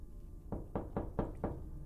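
Five knocks on a door in a quick, steady rhythm, each a fairly loud, dull thud with no voices around them.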